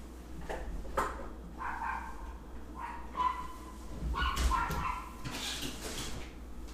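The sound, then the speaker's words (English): Dogs bark and whimper in a string of short, fairly faint yips and barks, irregularly spaced over a low steady rumble. “I guess the dogs are trying to have a conversation with us.”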